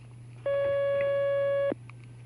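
A telephone line tone sounds as a call connects: one steady, bright tone lasting a little over a second, rising clearly above a constant low hum that runs through the whole clip.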